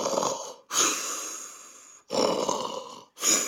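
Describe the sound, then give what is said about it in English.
A man imitates his own snore with his voice: about four long, raspy snoring breaths, each drawn out and rough, separated by brief silent pauses. “That's a pretty classic snore. Yeah, that's perfect. Yeah, that's like typical. It's a tanguero snore.”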